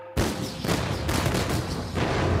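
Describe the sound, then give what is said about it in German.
Artillery opens fire in a dramatized battle between French infantry and English soldiers during a fictional invasion of England: heavy booms start abruptly after a brief lull and roll on as loud, dense, overlapping blasts and rumble. “Die Artillerie eröffnet das Feuer.”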